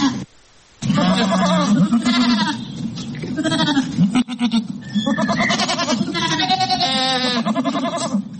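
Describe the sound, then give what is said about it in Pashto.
Livestock bleating as a robot shepherd in Australia herds them: many loud, overlapping wavering bleats that run almost continuously after a brief quiet opening. “د استرالیا په سیدنی پوهنتون کې د لومړي ځل لپاره ساينس پوهانو داسې روبوټ جوړ کړی دی چې د شپون کار ورکوي، داسې چې څاروي پیایي.”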